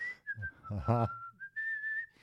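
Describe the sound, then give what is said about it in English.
A person whistles a casual, wavering tune with pitch sliding up and down. A brief voiced sound interrupts the middle, then the whistle continues steadily to the end. “I literally, like, looked around and whistled.”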